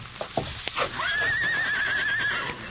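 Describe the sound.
A horse named Silver neighs in a corral: after a few short knocks, one long, high whinny wavers steadily for over a second before fading.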